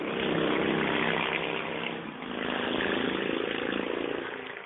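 A noisy motorcycle engine drones loudly and steadily, dipping briefly midway before the rough roar resumes and holds to the end.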